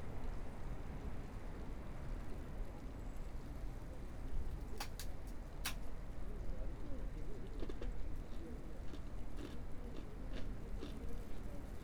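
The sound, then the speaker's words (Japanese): Someone bites and chews crunchy snacks: a few sharp crackling bites, then softer irregular chewing over a steady noisy background. “たまにはこうやってね、お菓子でも食べて休むことも大事よね。”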